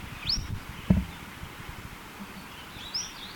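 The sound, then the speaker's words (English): Two short, high chirping notes from a bird, about three seconds apart and fairly faint, with a brief low thump in between. “both notes are by this bird”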